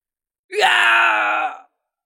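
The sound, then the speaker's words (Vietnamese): One agonized human scream, a loud, strained cry lasting just over a second that lurches upward in pitch at its onset, then holds a steady tense tone before cutting off into silence. “Tiếng hét thảm vang vọng, người đang chạy tới đó phản ứng không kịp nên mất mạng ngay lập tức.”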